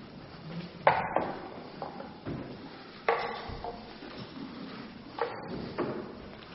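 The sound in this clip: Wooden chests being opened: hollow clunks and knocks of lids and wood, with a few sharper thumps standing out among softer rustling and handling noise.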